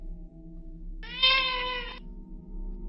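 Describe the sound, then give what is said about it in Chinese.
A single cat-like cry, a clear harmonic meow lasting about a second, stands out above a low steady hum and then stops. “就在这个时候，一声类似好像猫的叫声将我叫醒了。”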